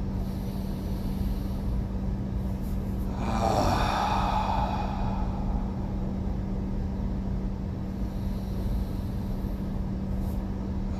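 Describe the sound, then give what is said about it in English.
A group draws a deep breath in through the nose together, making one broad, airy swell that lasts about two seconds over a steady low hum, with no talk. “we'll all take a breath together. Deep breath in through the nose.”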